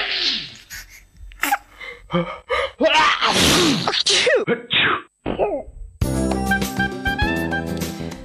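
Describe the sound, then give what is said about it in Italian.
A quick run of sneezes with sharp gasping inhales between them, some bursts explosive and noisy, followed by music that starts and plays to the end. “ma arriva lo starnuto liberatore, o meglio purificatore.”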